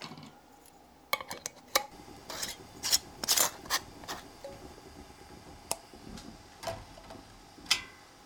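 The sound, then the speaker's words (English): Metal screw bands are twisted down hand tight onto glass canning jars of home-preserved food. Many faint rasping scrapes and sharp little clicks come in irregular bursts, with quiet gaps between them. “get your screw bands and screw those down. And you're just screwing these down hand tight.”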